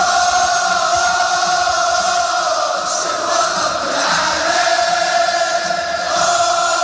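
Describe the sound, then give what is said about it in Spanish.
Crowd noise from a football stadium during a match in Morocco: a loud, continuous roar of many voices that holds steady throughout, with no clear breaks. “Este es el sonido de un estadio de Marruecos durante un partido de fútbol,”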